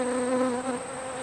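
Bees buzz in a continuous, steady drone with a clear pitched hum, fairly faint and heard alone without voices.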